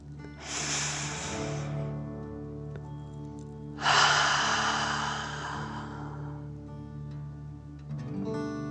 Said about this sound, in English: take another deep dragon breath. Fill up your chest and belly, in and out.